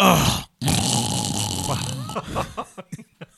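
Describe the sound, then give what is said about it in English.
A man's voice imitates a man snoring: a short rasp, then a long, loud, gravelly growling snore that breaks into a few brief snorting bursts. “snoring on my taping”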